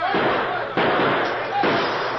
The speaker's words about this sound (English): He went through the window! Come on!